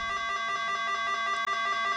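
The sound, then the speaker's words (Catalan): A house doorbell rings as a steady electronic buzzing tone with rapid, regular pulsing. It continues unbroken for the whole clip, with one brief dropout near the end. “quan toquem el timbre de casa en Laszlo, en respon una dona”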